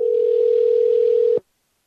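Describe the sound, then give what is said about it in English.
A telephone dial tone: one steady, loud, unwavering hum at constant pitch that holds for about a second and a half, then cuts off abruptly into silence. “What is this ringing noise I'm hearing?”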